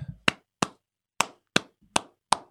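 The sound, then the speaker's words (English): Hand claps ring out on their own: six crisp, sharp smacks at an uneven, unhurried pace, each dying away quickly before the next. “I give you a clap. I got to.”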